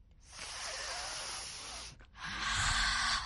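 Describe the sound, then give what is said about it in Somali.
A voice demonstrates a calming breathing exercise: a long, airy breath drawn in, a brief pause, then a slow, steady breath released, each a soft hiss heard alone. “Marka hore neef dheer qaado, sida adiga uba xaruftiis xarufsanaya oo kale, kadibna si tartiiba u soo daa neef sida adiga u shubac daminaya oo kale.”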